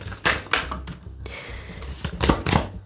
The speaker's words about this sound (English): Do one more shuffle, see what happens here.